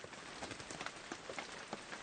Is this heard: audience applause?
no